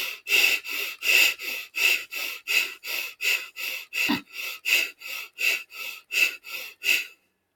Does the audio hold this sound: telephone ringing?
no